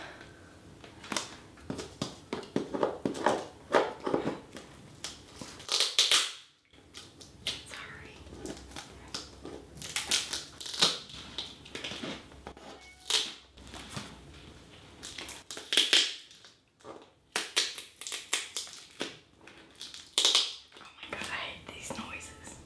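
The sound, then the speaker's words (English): Plastic packaging being cut, heard as many quiet crinkling snips and crackles in an uneven rhythm, with scattered louder clicks throughout. “I'm just going to cut the plastic first.”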